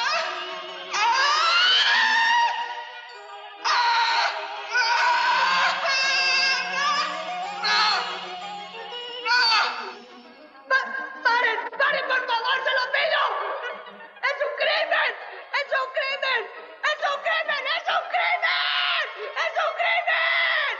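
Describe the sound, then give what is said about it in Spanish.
A man screams helplessly in anguish, with loud, strained wails that sweep in pitch. They give way to a run of ragged, broken cries and yelps toward the end. “Alex chilla impotente.”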